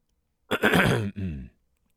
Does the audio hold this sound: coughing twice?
yes